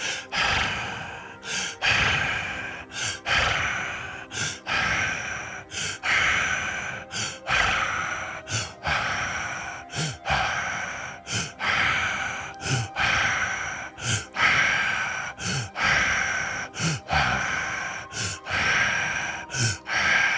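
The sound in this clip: Audible breathing during a guided breathing exercise, made of many deep inhales and exhales in a steady, repeating rhythm. Each breath swells and fades with a breathy hiss, and no talking is heard over it.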